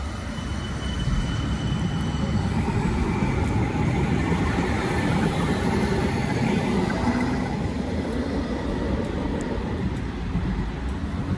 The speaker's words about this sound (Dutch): Maar dit is de tram in Nieuwegein.